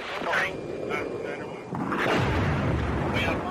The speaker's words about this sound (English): Bombs over Vietnam and Indochina.